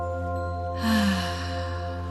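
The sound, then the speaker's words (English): A slow, deep breath is heard as one soft, breathy rush of air that swells and fades, set against a steady, sustained musical drone. “Inhale deeply. Exhale fully.”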